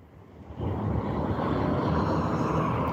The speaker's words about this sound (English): That was just a turning car. And it's going on the other side of the road.